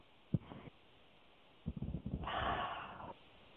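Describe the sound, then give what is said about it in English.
A deep breath: a brief sharp sniff near the start, then a few short puffs leading into a long, fairly loud, airy breath with no talking. “Good breath. That's the kind that heals. That's the kind of breath you want more of, just spontaneously, just like that.”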